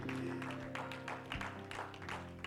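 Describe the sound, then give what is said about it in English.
A church audience claps their hands during a service, giving dense, steady clapping for the whole stretch, mixed with sustained low tones. “Clap your hands to the Lord before you said”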